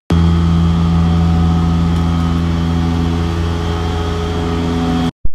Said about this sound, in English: This is the sound of a cleaning truck outside Friedman's